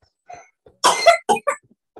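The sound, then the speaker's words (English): A baby coughs after choking on milk: a short run of sputtering coughs, the middle burst loudest and most raspy, with softer catches before and after. No one talks. “Bit of choker on the milk there.”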